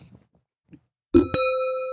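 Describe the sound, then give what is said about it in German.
A sparkling water bottle clinks against a wine glass in a toast: a short dull knock, then a bright, high clink that rings on as a sustained tone and slowly fades. “Mit einer Sprudelwasserflasche und einem Weinglas kann man schöne Anstoßgeräusche erzielen.”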